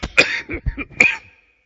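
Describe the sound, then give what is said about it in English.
Loud coughing comes in a quick series of harsh bursts mixed with throat-clearing, all packed into about a second and a half before falling silent. “Let me cough one more time.”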